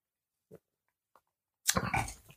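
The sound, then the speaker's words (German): A person takes a sip of a drink at a Halloween party: two faint, brief slurps, then a louder breathy burst to finish. “Ich trinke mal ein Stückchen.”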